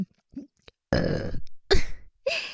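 Burping from a playful female duo: three loud, throaty burps in quick succession, each drawn out and rough, preceded by a few small soft mouth noises.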